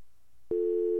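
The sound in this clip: Telephone busy tone after a caller hung up: a quiet, near-silent line, then a loud, steady, low-pitched tone cuts in halfway and holds unbroken to the end.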